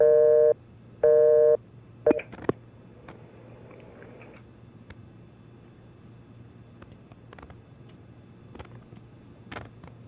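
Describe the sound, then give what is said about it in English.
Telephone busy signal on a phone whose buttons are being tried: two loud, evenly spaced tone bursts, then a few sharp clicks over a faint steady low hum. “Get these buttons working. See what happens now. Sounds like they're busy.”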